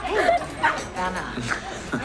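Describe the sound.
A dog up for adoption barks and whimpers in a few short, high yips and thin whines, coming in uneven bursts at a fairly low level.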